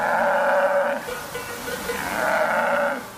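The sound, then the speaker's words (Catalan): Bellowing of a male red deer during the October rut: two long, loud, harmonic calls, the first lasting about a second and the second rising again after a short lull, with a rough, moaning tone. “És la brama del cèrvol, és un mascle”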